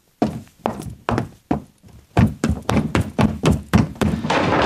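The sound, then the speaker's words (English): Hollow thuds of foley footsteps on wooden boards stand in for someone running upstairs in a period-film house. Many loud, heavy steps come first, then a short gap, then a quicker, steady run of thumping steps. “which we would have used probably for the upstairs of Joe Fiennes' house when he's writing his play in Shakespeare in Love. When you ran upstairs, this is the sort of stuff we would have used.”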